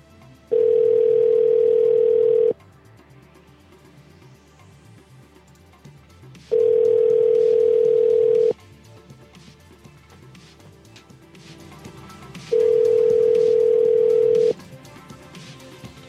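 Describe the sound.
A landline telephone tone sounds as three loud, steady, mid-pitched beeps, each lasting about two seconds. Longer gaps with only a low hum fall between them.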